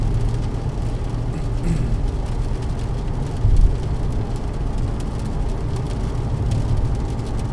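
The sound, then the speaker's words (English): Busy road traffic rumbles as a constant, dense wash of low engine and tyre noise, steady in level apart from one brief louder thump midway. “we have normal traffic once again, and the roads are very busy.”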